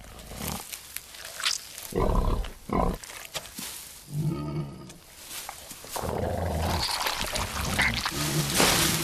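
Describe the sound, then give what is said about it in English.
A wild boar feeds on tomatoes inside a polytunnel, with irregular grunts, snorts and snuffling bursts that give way to a steadier stretch of rustling and chewing noise toward the end. “The boar's upturning crops as it investigates the polytunnel's contents. A grapevine hits the ground close to the hedgehog. Then the boar's feasting on tomatoes.”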